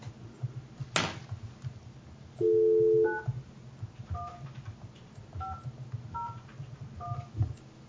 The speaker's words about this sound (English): I'm trying to dial slow.